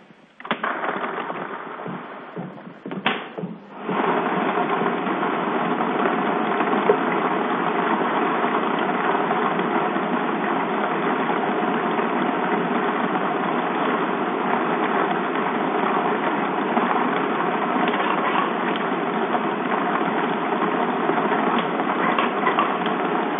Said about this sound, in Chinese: 好的，马上为你启动摇奖机。